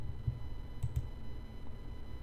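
Three faint computer mouse clicks over quiet background hiss, the last two coming in quick succession.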